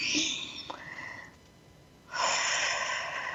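Breath sounds taken during a guided relaxation exercise: two long, airy breaths of broad soft noise, each lasting over a second, separated by a short pause, with no talk.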